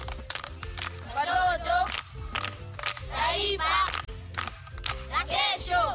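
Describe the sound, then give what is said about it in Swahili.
Schoolchildren at a primary school clap their hands among sung and chanted children's voices, with sharp claps cutting through the singing at uneven moments. “Makofi kwa mjomba.”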